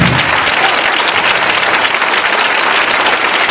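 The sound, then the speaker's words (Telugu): An audience claps loudly to praise God during a Sunday church worship service. Dense, vigorous applause from many people continues without a pause. “చప్పట్లతో దేవుని గణపరిస్తాం గట్టిగా”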